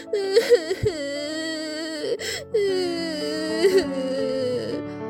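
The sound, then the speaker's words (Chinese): A child wails and sobs in long, wavering cries that rise and fall in pitch, with a few short catches of breath between them. The sound is clear and alone. “斑斑用力的哭啊哭，哭啊哭，哭的好累好累，好累好累，不知不觉他就睡着了。”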